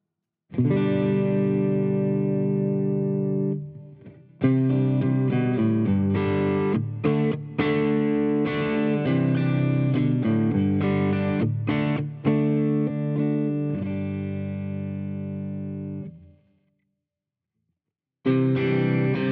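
Electric guitar with Gatekeeper GKPT Tele pickups and a malfunctioning switch, played with heavy distortion. Sustained chords and single notes run in phrases with a short pause, then stop near the end before a brief final strum.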